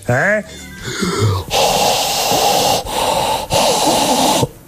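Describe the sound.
Heavy, forceful breathing: after a few brief vocal sounds, three long, loud, rasping breaths follow one another with short gaps between them.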